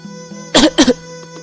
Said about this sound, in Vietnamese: Bạch Ngọc Đường đang ôm ngực ho khan trên ghế dài